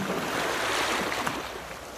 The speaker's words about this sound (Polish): O, wsłuchajcie się w muzykę fal. Wsłuchajcie się w delikatny wiatr.